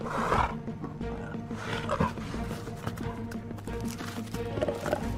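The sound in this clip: A lion roaring, with several low, rumbling growls and roars rising and falling over a steady background.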